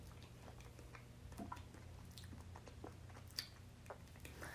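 Someone quietly bites and chews a strawberry swirl Japanese candy ice cream cone, with soft squishy chewing and a few crisp little crunches at an unhurried pace and no talk.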